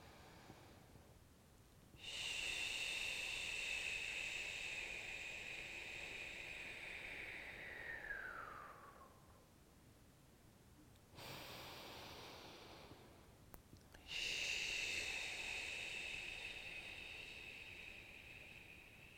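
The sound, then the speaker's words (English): Long, drawn-out mouth exhales during a breathing exercise: three sustained, breathy rushes of air with pauses between them. The first is the longest and trails off, and the second is shorter. No talk. “So you breathe in through the nose out through the mouth and you really drag out the exhale so it's very long.”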